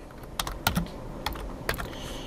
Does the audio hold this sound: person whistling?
no